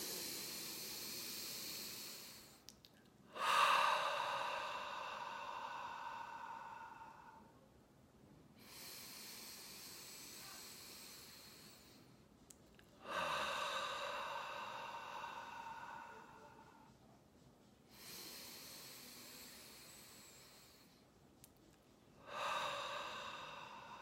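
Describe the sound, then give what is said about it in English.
A few slow, hissing breaths drawn in through the nose, each a broad airy rush lasting several seconds and separated by quiet pauses, soft and calm with no talking. “Three breaths in through the nose.”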